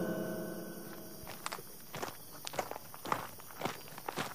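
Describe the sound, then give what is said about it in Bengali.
Footsteps of people walking on a village path between mud houses make a series of soft, fairly irregular steps, faint and alone over a quiet background. “গরুর গাড়ি চলে যেতেই তারা হাঁটা শুরু করল”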